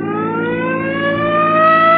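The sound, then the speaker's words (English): Vehicle siren switched on, a loud, steady harmonic wail that climbs slowly in pitch across the whole clip, with no voices. “Come on, hit your siren.”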